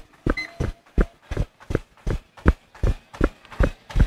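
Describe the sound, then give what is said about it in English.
Jogging on a running treadmill: steady, evenly spaced footfalls thud in a quick, regular rhythm, many strikes in a row with no talking. “off with a treadmill run. So this is going to go treadmill jog.”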